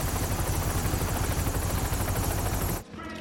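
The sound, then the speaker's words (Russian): A helicopter in flight gives a loud, steady rotor roar with rapid thumping pulses and a dense whine. The roar cuts off abruptly near the end to a much quieter sound. “Вертолет летит на место. Скоро будем на месте.”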